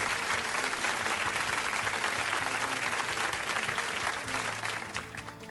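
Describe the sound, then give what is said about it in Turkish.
Steady applause from an audience at a quiz competition, a dense wash of clapping that holds level throughout and eases off slightly near the end. “bir alkış alabilir miyiz?”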